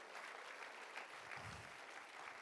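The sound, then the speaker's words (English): Faint hand clapping from a worship audience giving praise, a soft, steady wash of many hands with no clear breaks across the whole clip. “Give Him a hand clap of praise.”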